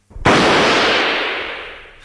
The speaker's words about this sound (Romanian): Vezi rasa aceea care s-a ridicat acum în aer? Eu o văd. Acum urmărește-mă. Ochesc și trag.